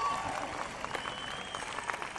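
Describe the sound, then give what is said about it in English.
Polite applause from an audience at the close of a farewell address: a steady patter of many hands clapping at a moderate level for the whole clip. “Affirmation of connection to audience, conclusion, polite applause and yawning.”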